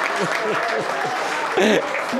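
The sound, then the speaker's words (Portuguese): Applause from an audience at a political session honoring an acting president, a steady dense clatter of clapping that runs the whole clip with voices calling out over it. “E aí é uma salva de palmas, Marco Maia.”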